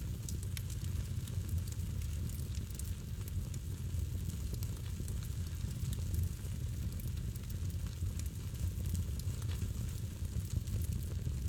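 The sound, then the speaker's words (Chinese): A crackling campfire burns with a steady, soft hiss and faint scattered crackles throughout, low and even in level. “身旁的火焰也开始。雀跃的舞蹈，”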